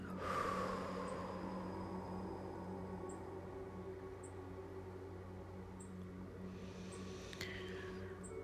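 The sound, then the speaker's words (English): A person lets out a slow, deep breath, a soft airy rush that starts loudest and gradually fades into a quiet, steady background. “Take a deep breath in. Hold. And release.”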